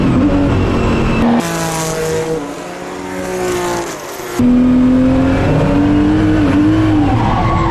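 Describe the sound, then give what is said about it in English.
Race car engine held at a steady, loud high-revving note as the rear end slides with throttle kept on, interrupted midway by a hissing skid of tyre noise before the strong engine drone returns unchanged. “You can hear that I don't really get off the throttle when the rear end starts going around.”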